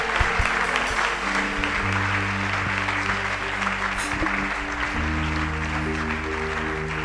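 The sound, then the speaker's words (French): A church audience applauds and acclaims during a service. The clapping is loud, steady and continuous throughout, with sustained low musical tones held underneath it. “Acclame Dieu pour ce serviteur authentique. Acclame Dieu pour sa vie.”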